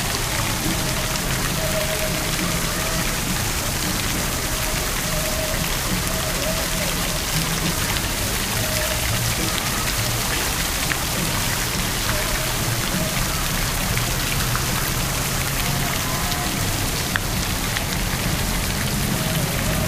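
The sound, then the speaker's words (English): Water splashes continuously in a public fountain near a skating area, a dense, even, hissing patter of falling droplets that holds at a constant loudness throughout. “Kind of a cool sound here. Let's check it out. We'll walk around it. Maybe you get like a three-dimensional sound or something. We'll walk all around this fountain.”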